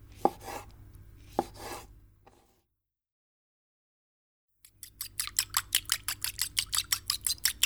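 Knife chopping food in a rapid, steady run of many crisp strikes, after a few louder thumps and a silent gap.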